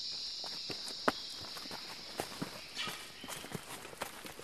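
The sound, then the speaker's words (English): Footsteps walk along a narrow rainforest track on a ridge, soft and uneven with a few sharper crunches, under a constant high buzz of insects. “So we're walking through the middle of the plot along our narrow track that we've got.”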